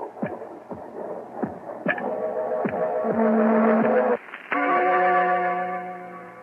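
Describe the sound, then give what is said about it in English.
A heartbeat sound effect in a radio drama: a steady series of low, dull thumps that gives way to sustained, ringing harmonic tones, with the overall level slowly building. “And that noise you hear is his heart. The beating of his telltale heart.”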